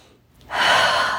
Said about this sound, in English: Big deep breath.